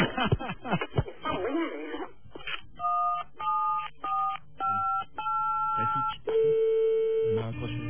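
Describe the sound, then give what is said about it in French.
Touch-tone telephone dialing: many short keypad beeps of varying pitch in a steady rhythm, ending in one longer tone. A brief burst of voice and laughter comes before it. “Je raccroche et j'appelle France Télécom.”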